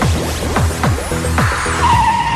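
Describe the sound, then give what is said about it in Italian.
Road traffic with cars swooshing past in a series of quick sweeping whooshes and a faint tire squeal, followed by a steady tone near the end. “siamo in mezzo al traffico.”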